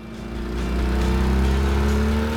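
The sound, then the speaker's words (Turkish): An engine revs as throttle is given, a sluggish-running motor after work on its electrical wiring. A droning hum swells over the first half second, then holds steady and loud. “motorun pek neşesi yok gibi. Biraz gaz vermeyi dene.”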